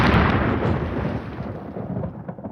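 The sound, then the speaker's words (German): Thunder from a storm at sea, a deep, broad rumble that starts loud and slowly fades over a few seconds, heard alone without voices. “Gewitter auf See klingen immer schlimmer, als sie sind.”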